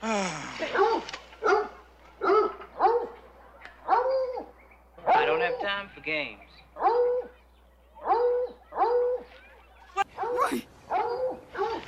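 Hunting dogs bark repeatedly, giving many sharp, evenly spaced barks.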